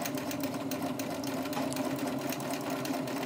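A sewing machine stitches straight stitches along fabric laid wrong side to wrong side, with the needle entering just beside the fabric edge. It gives a steady, continuous mechanical whirr with a fine rapid buzz and no pauses.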